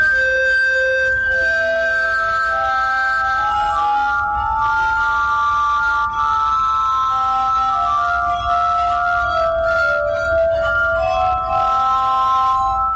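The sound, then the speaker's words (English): A glass harmonica played by an expert gives sustained, ringing, pure tones in a slow melody. Notes glide and overlap into soft chords, and the sound stays steady and full throughout. “The glass harmonica being played by an expert.”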